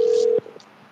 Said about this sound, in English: Oh, I'm going to call her back. Damn, I got the number on the place and I forgot where it is.